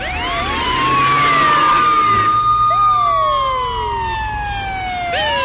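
A police siren wails in long sweeping tones, climbing then slowly falling, with overlapping siren lines and a fresh rising whoop near the end. It is loud and steady, with no voices.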